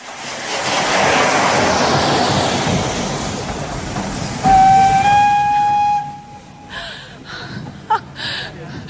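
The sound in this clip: A train at a station lets out one sustained whistle blast after a broad, hissing rush of noise. Voices follow as the whistle ends.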